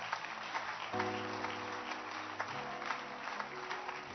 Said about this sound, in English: Clap your hands for our pastor.